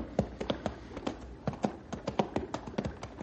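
Horses' hooves clip-clopping as riders travel along a mountain stream, a steady, evenly paced run of many sharp knocking hoofbeats at moderate loudness, with no voices.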